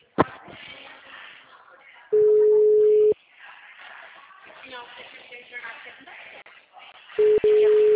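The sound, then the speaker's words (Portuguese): A telephone call being dialed: a long, steady electronic tone sounds for about a second, a busy stretch of other sound follows, then the tone returns near the end, broken by a sharp click. “ligar pro homem de ontem, o Hélio.”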